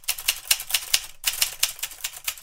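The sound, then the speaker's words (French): Typing on an old typewriter with a red and black carbon ribbon: many crisp, evenly paced keystrokes with a brief break partway through. “Tap tap tap tap tap, gling ! Je suis la machine, ressortie du fond de la mémoire, avec mon ruban carbone rouge et noir.”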